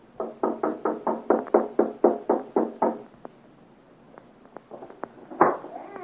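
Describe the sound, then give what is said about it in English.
Knocking on a door late at night: a fast, even series of many loud raps, followed by a few quieter taps and one sharper bang. “I have not heard. Knock again.”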